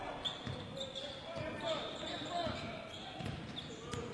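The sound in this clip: A basketball dribbled on the court during a game, its bounces thudding in a quick, regular rhythm beneath a continuous murmur of crowd noise and voices.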